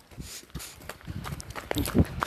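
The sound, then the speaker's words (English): Footsteps of someone running, heard as a quick, uneven series of thudding footfalls at moderate loudness that grow a little stronger toward the end. “I'm running. I'm running as fast as I can.”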